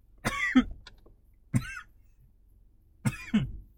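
Coughing after a hit to the throat comes as three short, rough bursts separated by pauses. The first and last bursts each have two hacks.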